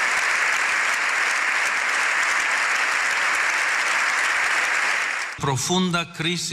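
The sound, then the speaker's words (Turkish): Standing ovation in Spain's parliament general assembly after an address: dense, steady applause for about five seconds, then a voice begins speaking as the clapping fades. “7 dakika ayakta alkışlandı.”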